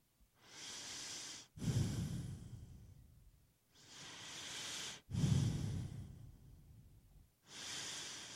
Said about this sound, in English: all you do is breathe